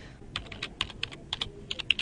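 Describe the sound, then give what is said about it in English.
Rapid typing on a computer keyboard as a search term is entered: many crisp, uneven key clicks in quick bursts with short pauses between them, clear and alone without talk. “But now I've just typed in YouTube”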